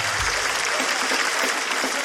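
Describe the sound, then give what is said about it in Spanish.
Applause for a mother: a thick, even wash of many hands clapping, loud and continuous without any pause or fade. “¡Un aplauso para la mami!”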